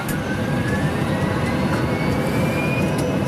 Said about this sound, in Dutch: even alsof we naar Moskou gaan vliegen. We zitten in een full motion flight sim op Schiphol.